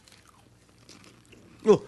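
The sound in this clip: A single loud, crisp crunch of biting into a pumpkin dish comes near the end, after a quiet stretch.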